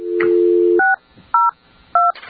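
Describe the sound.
Telephone dialing tones: a steady dial tone holds, then breaks off, and three short, loud touch-tone keypad beeps follow at even intervals as a number is entered.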